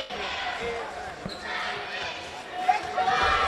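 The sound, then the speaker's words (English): Basketball dribbled before a free throw in a college game, a few quick bounces thumping against steady crowd murmur. “Four quick dribbles, a spin of the basketball in the left hand, and this one's good.”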